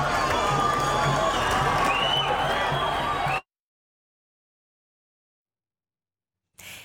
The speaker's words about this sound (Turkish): kurulan dev ekranların etrafında toplanan binlerce Filistinli İspanya'nın şampiyonluğunu coşkuyla kutladı.